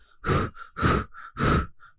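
Heavy panting from a man jolted awake in fright: three loud, rough breaths with quieter gasps between them, in an uneven rhythm with no speech.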